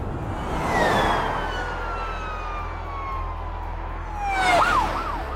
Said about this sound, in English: Two police cars whiz along the fast lane, blue lights flashing.